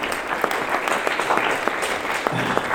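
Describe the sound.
Audience applause at a festival, honoring a provincial group from Hamedan in the religious section: dense, steady crackle of many hands clapping at once, with a few sharper, louder claps standing out, and no voices over it.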